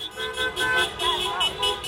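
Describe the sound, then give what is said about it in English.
Car horns honking as people celebrate in a downtown Los Angeles street on a Saturday morning after an election result, a few loud repeated toots sounding in quick succession over traffic noise. “That's the sound of people celebrating in downtown LA on Saturday morning”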